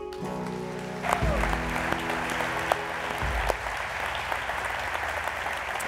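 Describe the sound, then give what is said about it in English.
A church audience applauds to welcome a guest preacher, steady clapping rising as a held low musical chord fades away in the first few seconds, then continuing evenly with a few sharper claps. “So at all 11 of our locations around the triangle, would you put your hands together and join me in welcoming Pastor Joby Martin.”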